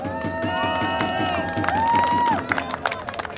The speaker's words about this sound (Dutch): Een groot applaus voor jezelf.